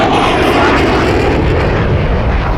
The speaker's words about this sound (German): Nein, diese scheiß Flugzeuge! Die kommen jetzt jeden Tag!